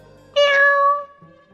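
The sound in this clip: A black cat perched on a boat gives a single clear, mid-pitched meow, drawn out for under a second and heard alone against near silence.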